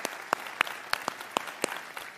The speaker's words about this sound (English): And why don't we put our hands together to welcome the men who are watching right now and people on TV and online.